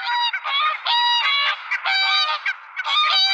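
Whooper swan calling in a rapid run of many nasal, honking, trumpet-like notes. The calls are loud and rich in harmonics, with only brief gaps between them and no voices.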